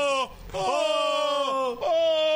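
Two men moan playfully in long, wavering, sustained vocal tones, broken by a couple of short pauses.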